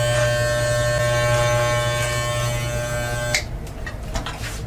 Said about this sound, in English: We're going to cut this beard down a little bit.